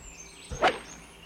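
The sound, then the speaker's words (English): A golf club strikes the ball on a sliced shot: one sharp, quick crack with a slight swishing edge, standing alone over faint background hiss. “I'm still slicing it. It's a little better. It's okay. Just work on your swing. Yeah. I'm just pulling too hard.”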